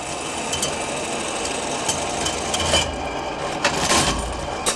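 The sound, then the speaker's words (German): Steady mechanical rattling and whirring from a 125-year-old machine that measures the area of leather pieces, kept in a shoe archive museum. A few louder knocks and clicks stand out from the continuous clatter. “Diese Maschine misst die Fläche von Lederstücken, auch 125 Jahre später noch.”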